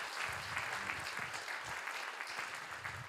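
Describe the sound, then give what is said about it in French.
Audience applause at a conference on biodiversity and local authorities: steady clapping from many hands, fairly faint and continuous throughout, with no talk. “je pense qu'on peut les applaudir aussi, même s'ils ne sont pas avec nous.”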